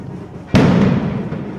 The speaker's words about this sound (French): c'est plus un vrai boulet de canon qui est tiré, mais c'est midi, c'est normal.